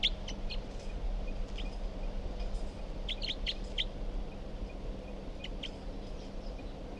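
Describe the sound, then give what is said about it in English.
Short, high bird chirps come in scattered clusters, a few at a time, over a steady low hum and faint background noise, with no voices. “Recording bird 362 here.”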